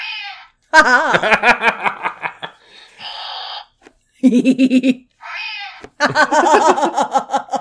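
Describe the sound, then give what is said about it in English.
A Lothcat toy from Star Wars Rebels gives angry electronic cat noises: several bursts of yowling, pulsing meows and growls, some high and thin, others lower and rapidly throbbing, separated by short silences. “He makes angry noises. I just need them to. I don't know how to do it. I can't remember how to trick. Oh, there it is. Hold on. The Lothcat jumps out and goes.”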